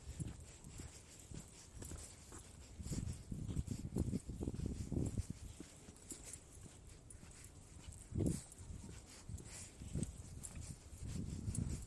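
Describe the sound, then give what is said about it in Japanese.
Footsteps walking through a quiet residential street: a run of soft, muffled thuds that keeps up a steady walking rhythm throughout, faint and low, with little other sound. “完全に静かな住宅街をね、こう、歩いております。”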